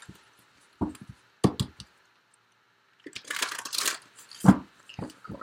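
Tarot cards are drawn and handled, giving scattered soft taps, clicks and papery rustles in irregular short bursts, with a longer crinkling rustle midway, fairly faint and without voices.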